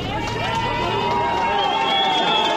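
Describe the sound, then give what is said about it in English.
Flag-waving supporters of Kılıçdaroğlu chant together at a political rally, a loud, sustained mass of voices in unison with a steady, rolling rhythm. “He's welcomed ashore. Kılıçdaroğlu is our hope, they chant. There's a sea of flag-waving supporters”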